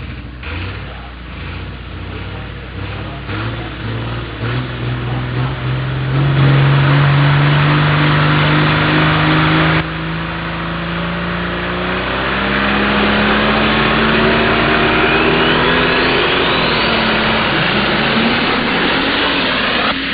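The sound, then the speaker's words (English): A diesel superstock pulling truck at a truck pull, 8,200 pounds with multiple turbochargers, revs in a loud, continuous engine roar whose pitch climbs gradually through the second half. “we'll move right into the diesel superstock class, the 8,200-pound diesel supers. Multiple turbochargers, lots of horsepower and torque in this class.”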